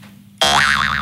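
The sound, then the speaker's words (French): A jaw harp (guimbarde) twang like a cartoon spring boing: one sudden loud pluck, then a sustained buzzy tone whose pitch wobbles up and down in a steady wavering vibrato until the end. “Et la guimbarde, c'est le bruit de ressort, c'est le truc qui fait comme ça.”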